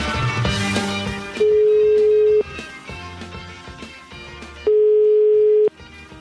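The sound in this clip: Telephone ringing tone on a call to a bar: two steady, even-pitched tones about a second long, separated by a pause of roughly two seconds.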